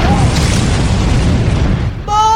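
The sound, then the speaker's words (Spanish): A loud explosion of a petrol tank struck by gunfire: a dense, roaring blast that holds steady for about two seconds, then drops off abruptly, with a short tonal sound right after. “¡Van a disparar el depósito de gasolina!”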